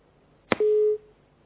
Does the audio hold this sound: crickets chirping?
no